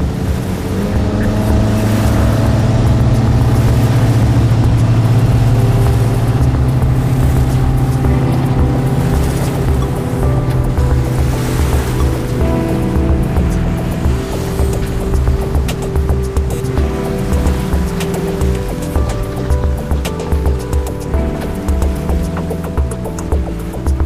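A motorboat's engine drones steadily and loudly as it heads out to sea toward a shipwreck dive site, a dense, unbroken rumble mixed with water wash and no voices.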